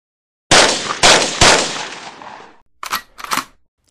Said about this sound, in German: Nun steigen sie aus, schnappen sich ihre Waffen und fangen an zu schießen.